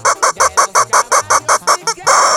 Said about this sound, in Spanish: Por ahí mandarle sus pollos, mi gente, a toda la gente que se viene levantando